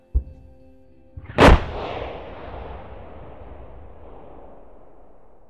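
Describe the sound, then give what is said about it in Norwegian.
A supernova explosion sound effect: a small click, then a single loud, deep boom that trails into a long, slowly fading rumble. “Til slutt eksploderer òg supernovaen, og slenge massa ut i ei ny sky.”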